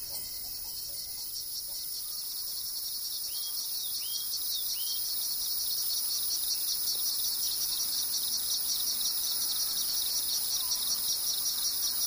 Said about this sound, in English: Insects.